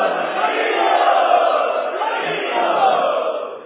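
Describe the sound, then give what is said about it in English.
A crowd of devotees and guests at an ISKCON temple shouts a loud, sustained chant of Haribol in unison. The mass of voices swells and holds for a few seconds, then tapers at the end. “So we would like to welcome all of these special guests by loudly chanting. Haribo!”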